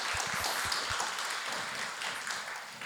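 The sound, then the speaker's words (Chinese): A Chinese-speaking church audience applauds after a prayer. Many hands blend into a dense, even wash of clapping that holds steady throughout. “给神一个大大的掌声”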